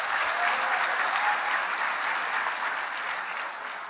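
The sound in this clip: Audience applause welcoming a speaker to the pulpit at a church service, dense steady clapping from many hands filling the whole stretch and easing off slightly toward the end.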